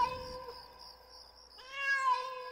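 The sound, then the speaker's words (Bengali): A cat meows twice: two long, harmonic cries, the second louder than the first, with no talk. “তারপর বিড়ালটা কোত্থেকে জানি দুবার ম্যাও ম্যাও করে উঠল।”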